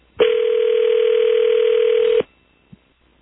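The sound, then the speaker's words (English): Telephone dial tone heard while placing a personal call: a loud, steady, unbroken hum lasting about two seconds, then stopping, followed by a couple of faint clicks. “Gotta make a personal call if you give me just a moment.”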